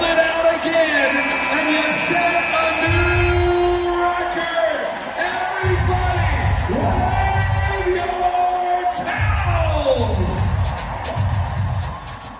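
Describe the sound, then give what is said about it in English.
Crowd cheering at Game 2 of the professional women's basketball finals between the Las Vegas Aces and the Connecticut Sun: a loud, sustained roar with shouts, whoops and bellows, and voices talking throughout. “sound you just heard was from Game 2 of the WNBA Finals between the Las Vegas Aces and the Connecticut Sun.”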